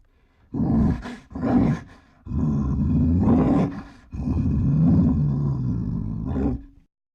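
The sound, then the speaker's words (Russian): A brown bear roars in four deep, rumbling bursts. The first two are short and the last two are long and sustained, with brief gaps between them and no other sound around them. “Бурый медведь.”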